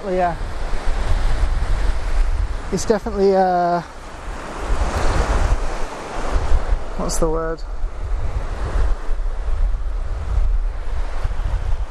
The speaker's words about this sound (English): I'm just gonna try and get some of these waves. These waves are really good.